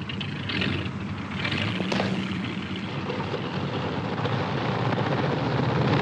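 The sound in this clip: Light propeller aircraft engine starting and running on an airfield, a low, rough rumbling roar that builds and grows gradually louder and steadier as the engine takes hold.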